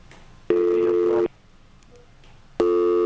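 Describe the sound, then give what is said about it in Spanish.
Telephone busy tone after a dropped call: two loud, steady mid-pitched tone bursts separated by a quiet gap, the second cut off at the end. “Parece que se nos cayó la llamada. A ver si nos vuelve a marcar el caballero.”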